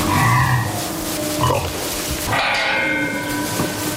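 A young woolly pig of a Hungarian breed grunts in a farm stall. A few short, low, rough grunts sound over a soft, steady background.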